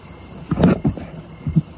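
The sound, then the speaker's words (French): A cricket chirps at night, a thin, steady high-pitched trill running continuously beneath a few soft, low thumps. “Ça fait deux nuits qu'il y a un grillon qui me monte sur la tête et qui me réveille.”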